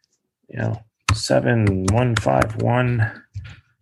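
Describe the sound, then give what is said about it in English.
Computer keyboard keystrokes as a number is typed into a patent search field: a few sharp clicks heard beneath continuous talk. “There's a quick search button there that you can click on, and I'm just going to type in the number here”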